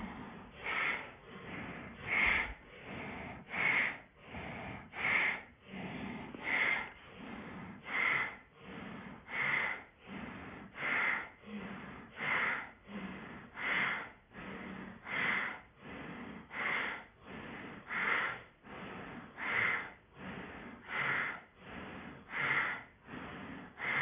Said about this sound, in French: Et puis là, on lance le souffle de Bastrika.